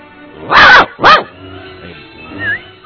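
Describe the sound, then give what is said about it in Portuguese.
A dog barks twice in quick succession, two loud, sharp yaps, followed by quieter, softer sounds. “subiu no caixote e ficou em cima do muro chamando o cachorro. Aí não deu outro, o cachorro já veio.”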